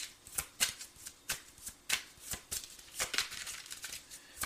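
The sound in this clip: A tarot deck is shuffled for a card draw: many quick, crisp papery riffles and slaps come in uneven bursts, fairly faint, with no talk.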